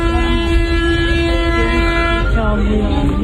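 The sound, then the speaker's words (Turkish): A vehicle horn blares in one long, sustained, loud tone, sounded by drivers warning a runaway truck with burning brakes on a steep downhill road. The tone changes slightly near the end. “Çevredeki sürücüler korna ve selektörlerle şoförü uyardı.”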